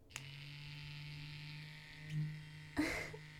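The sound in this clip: A vibrating toy switched on gives a steady electric buzz: a low, continuous hum held throughout, with a small click near the start and a brief rustling bump toward the end.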